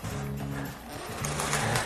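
A saw cuts along a traced template outline. It gives a steady motorized hum with a buzzing harmonic whine that dips briefly near the middle and then returns at full strength.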